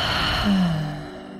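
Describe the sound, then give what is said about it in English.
A deep breath is let out in a big sighing exhale during a guided breathing exercise. Airy breath noise carries a short voiced hum and fades over about a second. “exhale, release it, inhale deeply, big exhale,”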